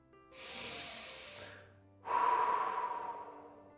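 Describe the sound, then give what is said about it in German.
A deep human breath, first a slow airy inhale and then, after a short pause, a stronger, longer exhale, both soft and breathy with no talking. “atme einmal durch. Einfach tief durchatmen.”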